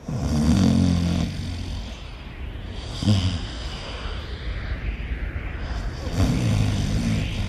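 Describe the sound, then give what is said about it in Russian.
A man asleep against a bridge railing snores in slow, rough, throaty rattles, three clear snores with long, quieter breathing between them. “а сам Юман-Батор на мосту храпит.”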